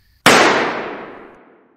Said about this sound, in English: Relax. It was just a warning shot. But now, you know I mean business, and I won't hesitate if you reach for it again.